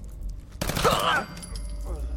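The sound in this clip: Video game gunfire while shooting an enemy on a turret: a short, dense burst of rapid crackling shots lasting about half a second, with a man's voice partly overlapping it.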